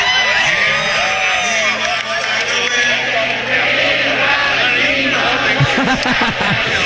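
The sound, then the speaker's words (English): A concert audience of thousands sings along together, a dense, continuous wash of massed voices with scattered whoops that stays loud and even throughout. “Listen to that audience.”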